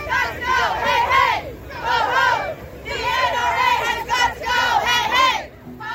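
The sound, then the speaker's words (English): Demonstrators at a nationwide March for Our Lives anti-gun rally in Washington, D.C. chant a slogan in loud unison, repeating it in a steady rhythmic call-and-response pattern over a crowd's murmur. “That's the sound of demonstrators in D.C. during last Saturday's nationwide anti-gun rallies organized by the group March for Our Lives.”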